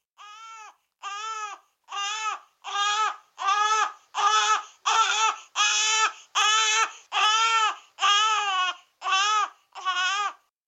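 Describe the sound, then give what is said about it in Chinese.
A baby cries in thirteen separate loud, wailing bursts with short gaps between them, steady and rhythmic, in a story scene where a plump baby boy lies inside a giant hollow mulberry tree. “突然间听见一阵阵的 BB 仔喊声啊。”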